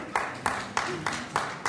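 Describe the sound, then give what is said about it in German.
Audience applause comes as a slow, evenly spaced series of firm claps, each a short crisp burst with a brief decay before the next. “jetzt kommt erstmal Beifall aus dem Publikum.”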